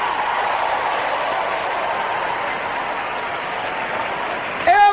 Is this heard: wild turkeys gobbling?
no